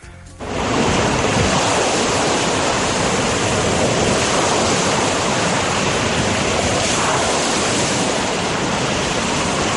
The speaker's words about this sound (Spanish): Eso parece unas olas rompiendo en un puerto o algo así. Eso es. O en la arena del mar.